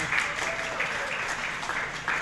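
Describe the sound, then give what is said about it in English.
Audience applause for the Wichita Public Library at an Engage ICT community event, a dense, continuous patter of many hands clapping at moderate loudness from start to finish. “round of applause for the library.”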